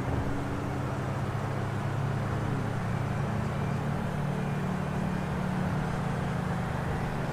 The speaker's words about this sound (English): Oh, I'm drifting.